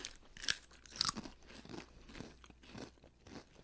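Crunching of garlic mashed potato flavored potato chips, with a few sharp bites followed by softer, continuous chewing, faint and with no talk.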